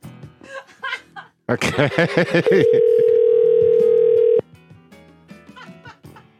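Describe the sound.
A telephone dial tone sounds as a call is placed back: a steady, loud, unbroken tone lasting about two seconds. Talk and laughter come before it, and quieter voices follow after it cuts off.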